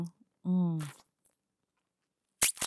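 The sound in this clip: Biting into a thick, fleshy tomato slice makes two quick, crisp crunching bursts that come after a short spoken word, with a quiet pause between the voice and the bites.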